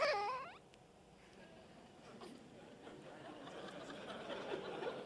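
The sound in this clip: A baby's brief, loud cry opens with a wavering, high wail that cuts off within a second. Softer fussing and a low murmur of voices follow.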